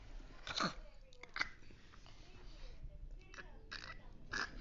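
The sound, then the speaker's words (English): Crisp bites and chewing on a raw carrot, taken as very small bites: a few sharp, dry crunches spread across a quiet background. “On the count of three, we will take a very, very, very small bite of the carrot.”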